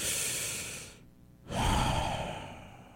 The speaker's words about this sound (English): that's when I'm like, oh, take a breath.